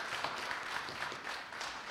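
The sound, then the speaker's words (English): An audience claps their hands in praise to the Lord at a church gathering. The applause is faint and continuous, with a soft, even patter of many hands throughout. “give the Lord a hand clap of praise for what he's done for us.”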